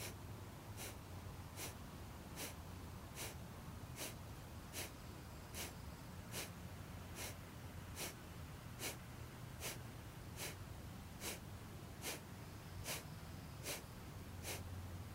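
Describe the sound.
Forceful nasal exhalations in Kapalabhati yoga breathing, a long series of short, sharp sniffing puffs in a steady, rapid rhythm at moderate loudness with no talk.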